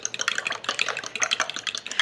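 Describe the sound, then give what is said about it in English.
Whisking baking soda and vanilla into wet ingredients for cornbread: a quick, steady run of many light clicking and scraping strokes, fairly soft and with no talk. “then I'm gonna splash in about 1/2 teaspoon of vanilla for yummy flavor, and then I'll just whisk this together.”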